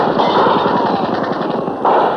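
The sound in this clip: Gunfire erupts as a suspect shoots at a police chief during an arrest: a loud, rapid machine-gun-like rattle of shots that runs for about two seconds, with a fresh burst near the end.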